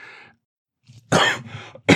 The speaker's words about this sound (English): for warning that you were going to cough so that my cough would be covered